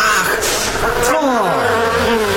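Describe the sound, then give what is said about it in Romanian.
A swarm of hundreds of honeybees buzzes in a dense, loud, continuous drone that lasts the whole time, with wavering pitch. “Un roi de albine. Ieșit. Sunt sute. Acum înțeapă.”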